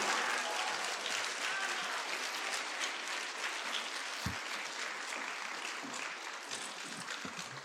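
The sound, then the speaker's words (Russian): Sustained audience applause at an award ceremony and gala concert, a dense, even clatter of many hands that stays level throughout with no talk. “Ваши аплодисменты.”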